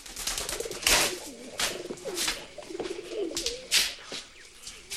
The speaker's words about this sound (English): Pigeons are roosting.